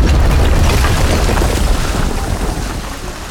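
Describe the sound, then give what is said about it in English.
A retail store's garden center explodes in a loud, dense, rumbling roar. It sounds as a continuous blast of heavy noise that slowly eases over a few seconds, with no voices. “Our story begins again as our intrepid retail employees watch the garden center explode in front of them.”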